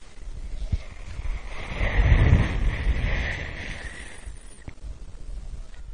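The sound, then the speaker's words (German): Sea wind blows around a boat with waves washing beneath it, a steady rushing roar that swells in the middle and then eases again, with no voices. “Nach einigen Stunden erschwoll jedoch die leichte Meeresbrise”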